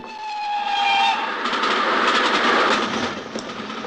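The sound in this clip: Coal-fired steam train running on rails, a loud and steady rushing rumble with rhythmic clatter that holds through the whole clip. A whistle-like tone sounds during the first second, and no voices are heard.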